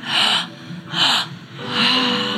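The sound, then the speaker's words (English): Deep belly breathing in a live breathwork and meditation session: three strong, airy breaths with no talk. The first two are short and the last is long and sustained. “if you can breathe about 5% more air into that belly”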